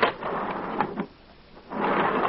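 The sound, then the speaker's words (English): Jet-propelled elevator taking off as a radio comedy sound effect: a loud rumbling roar that drops into a brief lull, then surges back to full strength. “Now, there's a novelty. An elevator with jet propulsion.”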